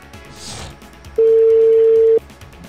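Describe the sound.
A telephone tone sounds while a call is placed: one loud, steady, even-pitched tone lasting about a second over faint background noise.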